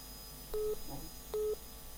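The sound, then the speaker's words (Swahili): Two short, evenly spaced electronic telephone beeps come through on a radio call-in line as the host picks up a listener's call. They are faint against a low, steady line hiss. “Lakini kwa sasa hebu nipokee hii hapa simu.”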